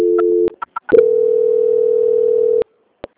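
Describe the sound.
Telephone tone while a call is being transferred: a steady electronic tone cuts off, a few short clicks follow, then a longer steady tone runs for about one and a half seconds before stopping abruptly, with another click after.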